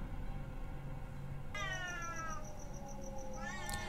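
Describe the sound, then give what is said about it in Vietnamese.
Two cats yowling as if about to fight, with long, drawn-out wailing caterwauls that start after a short stretch of low background noise. A higher, rising cry breaks in near the end. “Hai con mèo này kêu rất dai, cứ kêu gào không ngừng nghỉ.”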